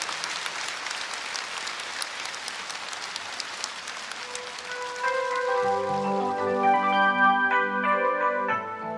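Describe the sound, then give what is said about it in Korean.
Concert audience applause at a Korean televised concert show: dense, steady clapping for about five seconds, after which a band starts playing and the music grows louder while the clapping fades beneath it. “박수 한번 다시 보내주십시오 대단히 감사합니다”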